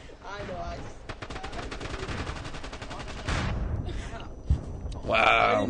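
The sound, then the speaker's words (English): Weapon fire in a shooting video game where players fire RPG rocket launchers at the ground and at teammates: a long run of rapid, evenly spaced shots, then a louder burst and one sharp bang, with people talking at the start and end. “We're shooting RPGs at the ground. And we're shooting RPGs at our own teammates.”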